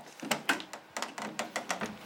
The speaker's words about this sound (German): Ein Intensivpfleger öffnet das Fenster des Zimmers.